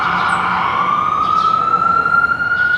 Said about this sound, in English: the United States, where most streets are now empty except for emergency vehicles